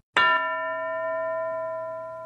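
A school bell gives one bright metallic strike that rings on with a steady, sustained tone, fading only slightly over two seconds. No voices are heard.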